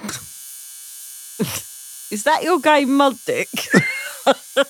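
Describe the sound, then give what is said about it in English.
A tattoo gun buzzes: a steady, thin electric drone runs throughout at an even pitch, while people talk over it. “I thought it was a beard trimmer. That is the sound of a tattoo gun.”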